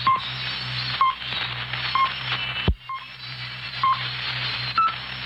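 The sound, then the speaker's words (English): Radio time signal pips from a Swiss chronometer on a shortwave broadcast: six short beeps one second apart over steady hiss and hum, the last pip slightly higher in pitch. “Here is a Swiss chronometer to give you the exact time. At the last tone, it will be 4 hours Greenwich Mean Time.”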